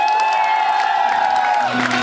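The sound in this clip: Crowd applause and cheering, loud and steady for two seconds, with a held high tone running through most of it.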